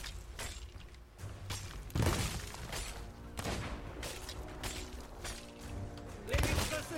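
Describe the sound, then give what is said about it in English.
A fire breath attack in a video game boss fight: heavy roaring blasts and crashing impacts, with a few loud bursts standing out over a dense, continuous bed of battle effects. “Whoa, fire breath. I don't remember that. Yeah, me neither. But apparently it's a thing.”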